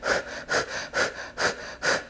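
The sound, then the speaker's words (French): A person imitates the rapid breathing used while pushing during childbirth: five quick, evenly spaced breaths in a steady rhythm, each a loud airy puff, with no talk. “quand la tête était là, je me mettais à respirer plus comme rapidement, là, comme ça”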